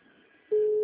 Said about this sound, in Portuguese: Ela colocou a chamada em espera, coitada.